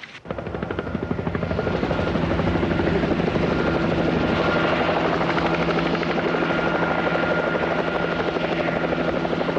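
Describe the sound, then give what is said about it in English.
A helicopter hovers beside a rocky peak above pine-forested slopes, its rotor and engine making a loud, steady, droning whir that swells slightly in the first seconds and then holds without a break. “The chopper hovers by a rocky peak.”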